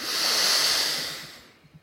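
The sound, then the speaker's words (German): One long, deep breath during a Kundalini yoga breathing exercise: a loud, airy hiss that holds steady, then gradually fades out. “Atme ein. Atme komplett aus. Und wieder tief einatmen.”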